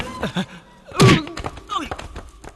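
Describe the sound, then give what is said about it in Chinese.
A door is forced open during a tense confrontation, giving one heavy thud midway. Voices talk around it. “马上把这个门打开！”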